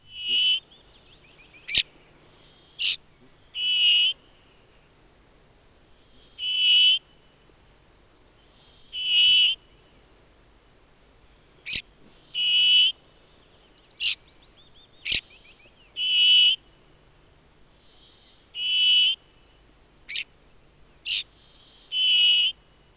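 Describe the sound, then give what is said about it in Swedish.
Brambling song: many short, buzzy high-pitched notes repeated at uneven intervals of one to two seconds, mixed with a few sharp clicks. “nu följer bergfink”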